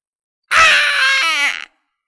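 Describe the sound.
A piercing, tonal cry from a wounded five-coloured mythical bird with a torn wing, circling in the air: one sustained shrill call about a second long that wavers and breaks near the end, heard alone.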